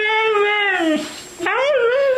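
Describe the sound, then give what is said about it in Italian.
A dog vocalizes in a drawn-out, tuneful way that mimics the phrase "I love you": a long harmonic tone sliding gently downward, a brief breathy dip, then a wavering, rising second part. “non è vero che dice I love you il cane, però fa questo verso qua”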